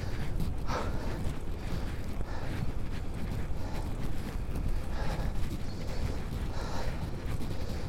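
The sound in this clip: Steady wind noise buffeting the microphone during an outdoor morning bicycle ride, a constant dense rush with a low rumble and no talk.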